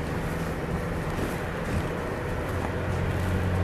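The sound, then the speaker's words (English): A Sprinter van climbs a steep, loose dirt slope off-road, giving a steady, loud, dense rumble of engine and wind noise with a low hum underneath and no clear breaks. “The vehicle climbing up over and the front end drops, but we don't bottom out on the way down.”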